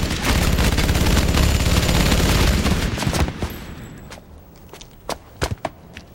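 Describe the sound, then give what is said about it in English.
A hail of gunfire: a dense, continuous roar of shots fills the first half, then thins into a few sharp, separate shots against quieter background. “They slaughter the terrorists in a hail of bullets.”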